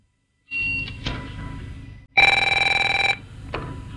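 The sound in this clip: A telephone rings for an outgoing call: one burst of rapid, bright trilling bell about a second long that rises sharply above steady background noise, then stops abruptly.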